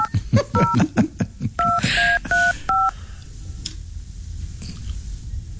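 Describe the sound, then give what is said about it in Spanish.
Touch-tone keypad beeps as a phone number is dialed: several short, evenly pitched dual-tone beeps, each clean and separate, in a quick irregular rhythm, with faint background noise between them. “Estamos marcando otro número.”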